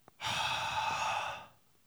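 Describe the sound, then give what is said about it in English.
A long breath blown out by a person: a single steady, airy exhale lasting just over a second that fades away at the end, heard alone. “The breath of God. The Holy Spirit. Receive the Holy Spirit. Jesus gives a physical reminder for them to remember.”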